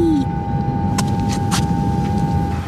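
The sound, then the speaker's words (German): An elevator travels down: a steady low rumble with a constant thin hum tone runs throughout, with a few faint clicks and ticks over the top. “Ich hole mal den Fahrstuhl. So, einsteigen. Ja, okay. So, ich bin drin. Und nach unten fahren.”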